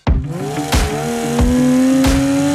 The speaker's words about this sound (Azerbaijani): Bardal Full Metal katkısıyla biz avtomobili 110 kilometre yaxsız sürdük. Mühərrik dağılmadı.